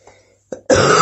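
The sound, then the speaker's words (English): Coughing, a faint rasp followed by a brief burst and then one loud, harsh, sustained cough that fills the end. “I'll stop coughing.”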